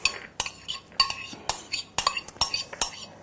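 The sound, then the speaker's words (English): Metal utensils clink and tap against a pot while a can of brown lentils goes into a dish, a quick run of many sharp, bright clicks and scrapes with short pauses between them. “Now we're going to add 1 can of brown lentils, or lentils that you've soaked overnight and cooked.”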